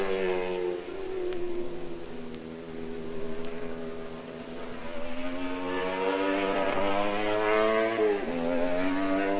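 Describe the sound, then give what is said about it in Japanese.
A race car's exhaust roars through a hairpin curve on a racing circuit. The buzzing, harmonic engine note holds loud and fairly steady, then dips sharply in pitch near the end and climbs again as the car powers out of the bend. “25R のヘアピンカーブはメインスタンドからは見えない位置にありますが、排気音だけははっきり聞き取れます。”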